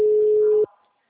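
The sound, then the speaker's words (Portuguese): A steady telephone hold tone on a dropped call: one clean, mid-pitched beep held for just over half a second, then cut off abruptly, leaving only a short faint tail. “Ui, caiu. A ligação entrou em modo de espera.”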